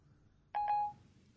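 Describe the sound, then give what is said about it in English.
A brief electronic chime from a phone voice assistant as it takes a request to set a four-minute timer: one short, faint bright tone with a doubled onset, alone. “Hello, Siri. Set timer for 4 minutes.”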